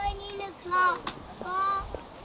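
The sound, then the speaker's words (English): Black-headed gull calls: two drawn-out, harsh, nasal cries with a few shorter notes between them, fairly loud over a low rumbling background. “That's right, it's a seagull. There's another seagull. That's a black-headed gull, that one. Yes, it's a white one with a black head.”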